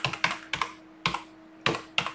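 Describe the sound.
Keyboard typing while an address in Khabarovsk Krai, Russia, is entered in Latin letters: uneven clusters of crisp, clicky keystrokes, several in quick succession with short pauses between bursts, and no talking.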